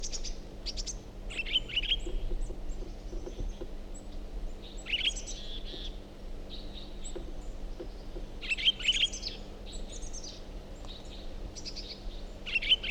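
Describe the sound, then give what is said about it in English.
Bird chirping in scattered bursts of short, high tweets. Some clusters come quicker than others, over a faint, steady low hum. “Start recording same bird.”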